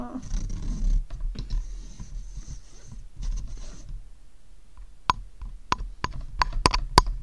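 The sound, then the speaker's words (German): A microphone is handled with rustling, scraping noise for about four seconds. Then, after a quieter pause, come a series of sharp, loud taps that grow more frequent toward the end. “Das ist das Mikro. Wenn du da drauf haust, natürlich ist es laut.”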